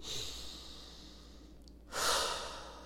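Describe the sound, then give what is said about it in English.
One deep breath, a soft airy rush of air that swells into a louder, broad breathy whoosh near the end, heard alone without talk. “And take a deep breath.”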